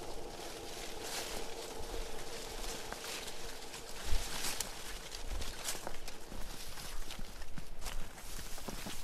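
Someone walks through salal undergrowth, a faint, uneven stream of soft rustling, crunching footsteps that patter on for many steps with small louder crackles.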